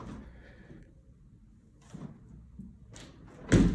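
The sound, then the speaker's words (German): Windows being closed indoors: a few soft scraping and knocking sounds spaced apart, ending in a sharper, louder thud, with no talk. “So, schließen wir mal doch die Fenster.”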